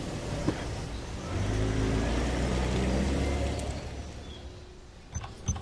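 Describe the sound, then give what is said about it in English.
A car drives in through an open gate, its low engine rumble swelling and holding steady before fading away, with a couple of light clicks near the end. “Just drive through when the gate's open. You can park just inside.”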